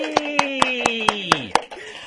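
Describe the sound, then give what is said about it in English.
Rhythmic hand claps, seven sharp evenly spaced smacks, ring out over a sustained cheering voice whose pitch sags toward the end, greeting a performer introduced on stage. “A round of applause, please, for Morgan Wiles.”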